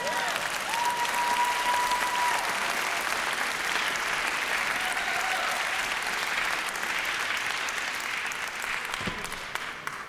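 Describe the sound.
An audience applauds as a ukulele band is welcomed to the stage: steady, dense clapping that holds at an even level for about ten seconds and thins slightly toward the end.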